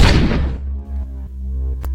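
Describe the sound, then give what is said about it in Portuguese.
A single gunshot from a .357 Magnum revolver fired at a rat in a kitchen: a loud, sharp blast at the very start that decays over about half a second into a low, lingering rumble. “Atirei de propósito e acertei por acidente. O revólver 357 saiu voando da minha mão,”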